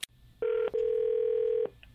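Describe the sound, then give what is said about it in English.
A telephone being dialed to place a call: a brief click, then a short tone and a longer steady tone at the same pitch, separated by a tiny gap and fairly loud over faint background hiss. “But let's get Renee on the phone.”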